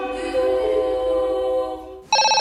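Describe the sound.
A telephone ringing with electronic tones: a steady, buzzy harmonic ring holds for about two seconds, then cuts to a brighter, pulsing ring. Both rings are loud and clear, with no voices.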